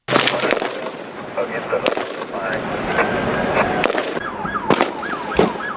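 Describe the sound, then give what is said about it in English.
Live gunfire from a roadside shootout between highway patrol officers and a man pulled over on a freeway. Several sharp, loud cracks ring out at irregular intervals over a constant noisy background, and voices can be heard. “the next sound you're going to hear is live gunfire.”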